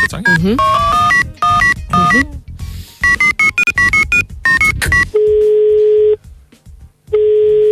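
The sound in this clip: A telephone call to a practice in Hamburg is dialled: a quick run of short tonal beeps, then two long, steady ringback tones separated by a pause.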